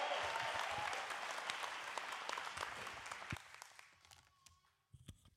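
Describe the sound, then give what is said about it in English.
Dense applause from a church audience welcoming a pastor to the stage, loud and steady at first, then thinning toward the end into a few scattered claps. “Can you put your hands together?”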